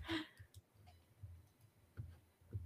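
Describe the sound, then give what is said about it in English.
Computer mouse clicks, a few faint sharp clicks spaced irregularly with quiet gaps between them. “Why can't I click it? Impossible. Why can't I click it? I can click it. The heck? I can't click it.”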